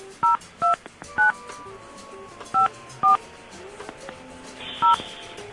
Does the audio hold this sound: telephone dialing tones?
yes